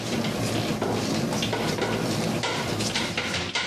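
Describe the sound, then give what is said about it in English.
Bread dough being worked by hand and slapping against a bowl, a dense, continuous run of wet, smacking thuds with no voices. “the sound you're hearing is the dough actually slapping against the bowl.”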